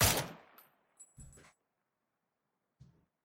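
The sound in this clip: Video game gunfire: a sharp, loud shot at the start that decays quickly, then a few fainter, muffled bursts separated by silence.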